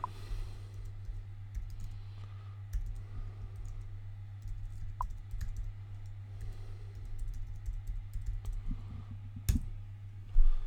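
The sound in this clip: Quick typing on a computer keyboard while setting up a chat message: many soft, uneven clicks over a steady low electrical hum, ending with a slightly louder thump.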